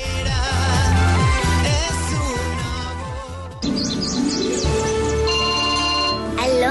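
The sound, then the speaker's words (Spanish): A smartphone ringtone signals an incoming call: a bright, chirpy melody with repeated tweeting notes, played loud over a steady musical backing throughout. “¿Papá Noel? ¡Mamá, me está llamando Papá Noel! ¡Es Papá Noel!”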